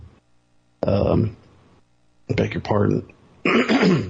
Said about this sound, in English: pardon me, got a frog in my throat.